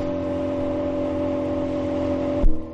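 A car drives along a narrow two-way Castilian country road through flat autumn farmland, its engine a steady, even drone that ends with a brief low thump.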